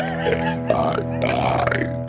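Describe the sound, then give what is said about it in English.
A long belch after drinking Glacier Fresh lager: one loud, drawn-out, low voiced burp that rumbles steadily for about two seconds, with no talking over it. “I'm gonna have to get some of this fucking Glacier Fresh lager foam out of my belly.”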